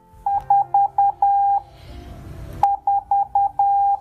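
Radio direction-finding transmitter beeping through a receiver: two groups of four short, steady mid-pitched beeps, each ending in a longer held tone, separated by a burst of rustling noise.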